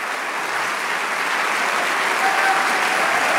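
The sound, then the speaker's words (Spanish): Applause from an audience at a Christian worship service: many hands clapping steadily and densely at an even, fairly loud level throughout, with no single voice standing out. “Si ese aplauso es para el Señor más fuerte.”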